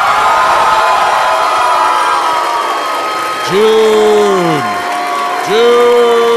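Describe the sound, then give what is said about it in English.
An audience member calls out a drawn-out "oh" over a murmuring crowd, then a second similar call follows. The first call sags in pitch at its end. “Oh, somebody just went, oh. Like, oh, they're all three here.”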